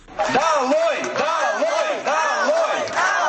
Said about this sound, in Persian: شرکتداران گردی همایی در باغ کنار شهر الماتا علیه حکومت چنین نداهای اعتراضی بلند میکردند.